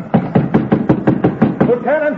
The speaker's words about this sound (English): And now as I pound this golden nail